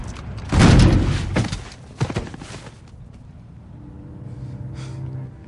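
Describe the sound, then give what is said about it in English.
A grenade launcher fires and explodes in an action scene beside a docked ship: a loud, broad blast, then a sharper thump, before the sound settles into a lower, steady rumble. “The undercover officer dodges and aims a grenade launcher. It blows a hole through Yero's chest, splattering his guts on the hull of the docked ship behind him.”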